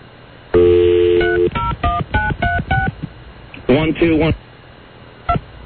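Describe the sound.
Touch-tone dialing of a telephone number: a steady tone gives way to a quick run of several short beeps, followed by a brief voice and one final beep.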